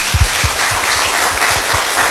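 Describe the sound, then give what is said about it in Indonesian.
Loud applause for three panel speakers at a discussion on school bullying, opening with a few sharp separate claps that merge into a full, even patter of clapping. “Mari kita berikan aplaus ya untuk ketiga narasumber kita.”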